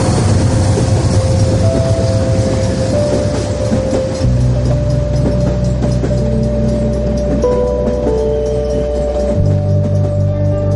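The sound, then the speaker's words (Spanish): Train wagons roll past on tracks running beside a street, a loud, continuous rumbling and rattling with a steady hum that fills the whole stretch without pause. “Contempla los vagones que pasan junto a él.”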